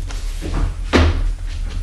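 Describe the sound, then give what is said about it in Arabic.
Door being opened in a radio drama, marked by a single dull thud near the middle over a steady background hiss, with a few softer handling knocks around it. “ما الذي أتى به اليوم إلينا وقد انقضت أعوام على براءته؟ افتح له الباب.”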